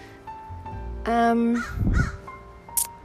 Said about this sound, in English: There's a bird right above me.